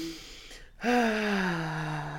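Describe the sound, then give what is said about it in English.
A midwife demonstrates breathing for labour: a quick, sharp inhale, then a long, loud voiced exhale whose tone slowly sinks in pitch. “sometimes I don't speak. I just breathe the way I need them to breathe.”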